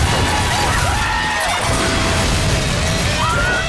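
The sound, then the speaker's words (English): A car smashes through a glass garage door into a club entrance, heard as a continuous wash of loud, dense crashing and scraping noise with thin squealing tones threaded through it. “In an explosion of glass and dust, the car smashes through the garage door entrance to the club.”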